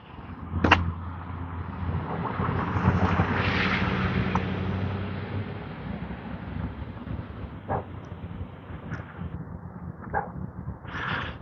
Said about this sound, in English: so we get a new roof. I can hear the nail gun going.